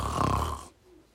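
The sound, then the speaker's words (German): One loud, rasping snore from someone asleep in bed. It is a broad, throaty breath lasting under a second, and a faint quiet follows. “legte er sich wieder ins Bett, schlief ein und fing überlaut zu schnarchen an.”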